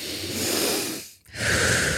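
One person takes a deep breath: a long, airy inhale, then a brief pause before a breathy exhale.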